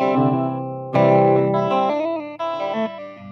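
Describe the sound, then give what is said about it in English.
An electric guitar plays through distortion and chorus effects, a few loud, sustained, gritty chords and notes ringing out with a sharp restrike partway through, alone without any talking. “I'm not sure how this guitar sounds.”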